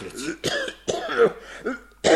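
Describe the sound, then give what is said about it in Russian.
A man with a cold coughs several times in short, hoarse, throaty bursts, with a rough throat-clearing quality and brief gaps between the fits. “кашлять. Кашель у меня, братец. Не знаю, где простудился.”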